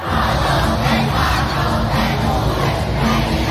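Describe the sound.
Concert crowd heard from outside the stadium, a loud, steady roar of massed voices that holds level throughout, swelling slightly at moments but never dropping away.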